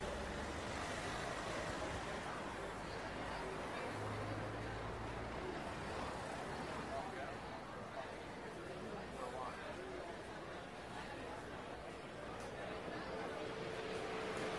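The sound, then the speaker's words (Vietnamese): Busy city street ambience at a hospital gate: faint, steady traffic rumble mixed with continuous crowd chatter throughout. “tiếng còi xe inh ỏi, tiếng chân của người chen chúc, tiếng gọi nhau ý ới”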